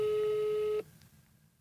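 A steady electronic ringing tone on an outgoing phone call holds at one pitch, then cuts off abruptly, leaving faint line hiss.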